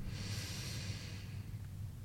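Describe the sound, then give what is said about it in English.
A slow, steady breath in during a guided meditation, soft and airy with a faint low rumble underneath, lasting the whole moment without any speech. “I invite you to join me in three more breaths. So breathing in”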